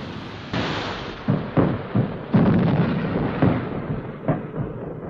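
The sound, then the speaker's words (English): Heavy gunfire aimed at a boat retreating down a river, with many deep booms and sharp cracks overlapping in a sustained, rolling rumble. “The consort retreats down the river, still under heavy fire.”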